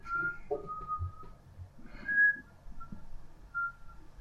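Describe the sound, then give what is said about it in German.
A person whistles a tune softly: a few sustained notes at different pitches, separated by short pauses, with no talking alongside. “ich finde das Pfeifen viel angenehmer, als wenn ich irgendwas erzähle”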